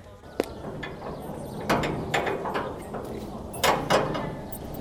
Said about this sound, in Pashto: ځا بېرته دروازه خلاصه کړه